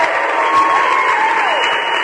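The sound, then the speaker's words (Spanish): Applause from an audience: dense, steady clapping that holds at an even, loud level for about two seconds without a break. “¿Qué pasó con los aplausos, señores? Andan dormidos.”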